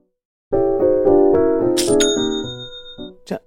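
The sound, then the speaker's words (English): Online store sale notification chime: a quick run of several bright tonal notes, then a clear ringing bell-like tone that lingers and fades, with a short high shimmer at the end. “Everything's okay. Whew. That's the sound of another sale on Shopify.”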